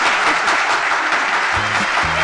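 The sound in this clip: Loud, dense applause fills a radio programme, with a voice speaking over the clapping near the end.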